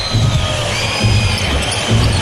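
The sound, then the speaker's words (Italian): Shrill whistling rises from the crowd at a professional basketball game as a player comes onto the court in the final minute of the first quarter, a constant piercing layer over crowd noise and low thumps of a bouncing ball. “E i fischi che sentite è perché è entrato Daniel Hackett sul parquet per questo minuto finale di primo quarto”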